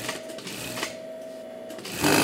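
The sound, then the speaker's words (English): An industrial sewing machine at a textile plant in Caracas stitches polyester fabric for baseball and soccer jerseys: a steady whirring hum with a thin continuous tone, ending in a louder, noisier burst. “At this textile plant in Caracas, workers cut polyester fabric. The pieces are then sewn together to make baseball and soccer jerseys.”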